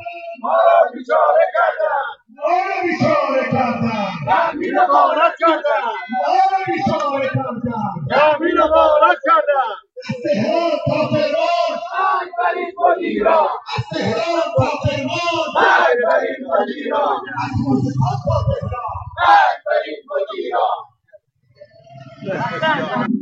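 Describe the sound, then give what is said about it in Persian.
Retired social security pensioners protesting in the street in Shush, their voices shouting and chanting loudly and almost continuously, broken by a few brief pauses. “تجمع بازنشستگان تأمین اجتماعی شوش امروز یک شنبه پنجم مهر 1405 در کف خیابان”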